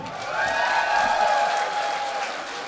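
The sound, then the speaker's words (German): Live audience applause at a band's concert: steady, moderately loud clapping from a crowd lasting nearly three seconds, with a sustained high tone running through it. “Ein Applaus für den Daniel.”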